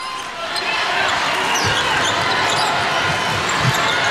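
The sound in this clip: A basketball is dribbled on court during a China versus Czech Republic game, a few soft thumps of the ball showing through steady crowd noise.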